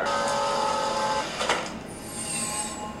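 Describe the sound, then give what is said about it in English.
A magic spell drying clothes makes a shimmering, sustained tonal wash, swelling into a brief whooshing burst midway, then a thin high tone lingering to the end. “The hell was that? Using magic to dry my clothes.”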